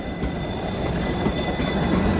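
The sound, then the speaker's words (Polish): A Polish 105N HF tram running on rails makes a steady, loud rolling rumble with a faint high whine above it, continuous throughout, with no voices. “Jakim tramwajem dzisiaj jeździłeś? Dziś 105N HF, mówi Kuba Drogoś.”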